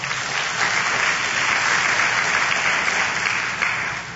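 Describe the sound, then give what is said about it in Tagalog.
A church audience applauding: a full, unbroken wash of many hands clapping, holding steady in loudness for several seconds before easing slightly at the end. “Pwede bang palakpakan natin ang Panginoon?”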